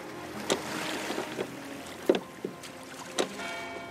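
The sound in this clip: Oars dip and splash as a rowboat is rowed toward the shore: a few uneven stroke splashes over a faint, steady hiss of wind and water.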